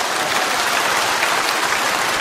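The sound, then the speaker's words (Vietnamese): Applause from an audience at a Buddhist monk's talk: continuous, dense clapping at a steady, moderately loud level with no break. “Các vị không dám vỗ tay lớn lời”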